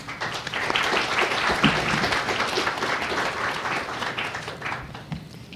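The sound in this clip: Applause from an audience at the International Spy Museum greets a speaker, a full, continuous patter of many clapping hands sustained at a steady level from start to finish, with no talking.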